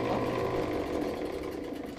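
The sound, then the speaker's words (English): A rock saw cuts through a geode in a storage room, giving a steady, dense mechanical drone with a grinding hum that holds level throughout. “We go back to the storage room where the machine's been sawing away at JB's geode for the last 10 minutes.”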